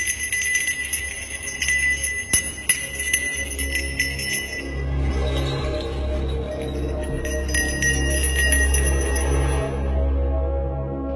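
Buddhist temple bell and wooden fish ringing together in sustained, shimmering tones, with a few sharper struck accents early on, steady and fairly loud throughout.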